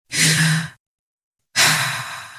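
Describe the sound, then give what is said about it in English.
A deep breath drawn in and let out as two long, loud, airy breaths separated by a short silence, with no talk. “Take a deep breath.”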